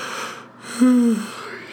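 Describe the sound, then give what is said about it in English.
A single voiced yawn from a person, a brief low groaning tone that holds steady and then fades, standing out over a steady background hiss. “Oh, God, another yawn.”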